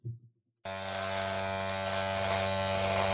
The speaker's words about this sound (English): I gotta go shave. Hold on a second. I'm gonna shave really quick before the end of the episode.